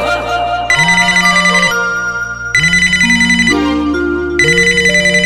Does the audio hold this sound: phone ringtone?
yes